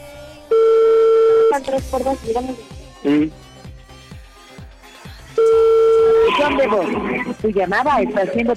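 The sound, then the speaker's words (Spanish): A telephone rings back on an outgoing call, with two long buzzing tones several seconds apart and people talking between and after them. “Oye, le estoy marcando, ojalá conteste porque pues guardó silencio y yo creo que después colgó.”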